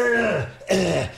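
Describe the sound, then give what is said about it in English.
Throat clearing: two harsh, gravelly rasps, the second starting abruptly after a brief pause, loud and with no other sound. “trying to clear my throat”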